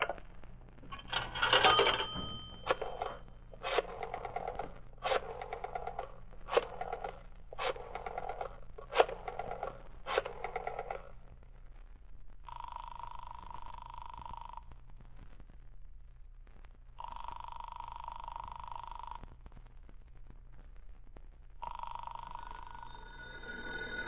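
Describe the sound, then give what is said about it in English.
A telephone ringing after a number is dialed: a quick run of short, buzzy bursts, then three longer, steady ring tones separated by pauses, with a low hum underneath. “I'll dial that number and ask for Rittman.”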